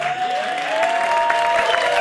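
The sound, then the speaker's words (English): A television studio audience breaks into clapping, a bright, busy patter of many hands that grows slightly fuller partway through and stays lively to the end. “We're clapping for my tease.”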